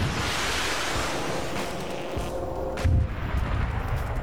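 Weapon fire after a radio fire command in an infantry training exercise at JRTC: a few heavy booming blasts over constant rushing, wind-like noise.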